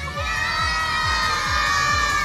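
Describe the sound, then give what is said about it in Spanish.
Many children shouting goodbye together at a summer course, a loud, sustained group cry held at steady volume throughout. “ahora sí, gritamos adiós”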